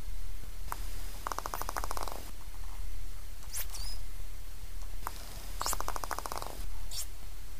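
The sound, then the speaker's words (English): A dolphin makes a sharp pop followed by a rapid train of clicks like a bouncing ping-pong ball. The pattern recurs over steady low background noise. “if you have a listen to the following clip, you can hear a pop sound followed by something that I can only describe as the sound of a ping-pong ball bouncing.”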